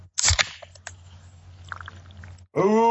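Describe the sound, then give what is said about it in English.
A can of Surge soda cracks open with a sharp snap and burst of hiss, followed by a quiet stretch of faint fizzing before a voice begins. “Got my surge ready. About to crack this open.”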